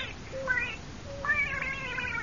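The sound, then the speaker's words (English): A cat meows twice: a short, thin call, then a longer, louder, drawn-out meow. “And now, folks, I want you to meet our little cat.”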